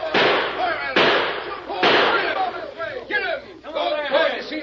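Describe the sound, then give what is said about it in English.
Gunshots ring out in an old western chase scene: several sharp, loud cracks burst out amid shouting voices and general clamour. “We hear shooting.”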